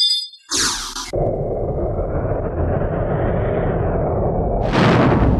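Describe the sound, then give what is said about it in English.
Fire erupting as someone is set ablaze in an audio drama: a sharp whoosh gives way to a loud, steady roar of flames that holds for several seconds, then flares into a brighter, harsher burst near the end. “Jesus, dude, you set him on fire! Ah, put it out, put it out, put it out!”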